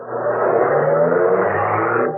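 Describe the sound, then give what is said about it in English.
A car engine as the car drives off, a steady, fairly loud whirring hum with a dense low rumble, holding even for about two seconds before cutting off. “The woman slipped out of the car, fled. The man got in, drove off.”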